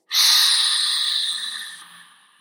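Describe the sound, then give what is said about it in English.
A hard exhale through the mouth: one forceful, breathy rush of air that starts abruptly and loud, then gradually fades away over about two seconds. “We're pushing it all in on inhale, four. do a hard exhale.”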